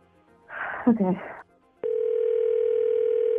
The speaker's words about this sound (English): I'm dialing him up right now.